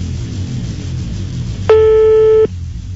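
A telephone busy signal after dialing a call sounds as one steady, fairly loud tone of under a second, standing out above a low, rumbling background.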